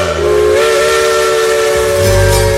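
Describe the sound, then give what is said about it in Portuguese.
A steam locomotive whistle on a mountain railway sounds as one long, loud, steady harmonic blast mixed with hissing steam, and a low rumble swells beneath it near the end. “Nossa locomotiva, nossa Maria Fumaça, rasgando as montanhas das Gerais, rasgando as montanhas desse Brasilzão de meu Deus.”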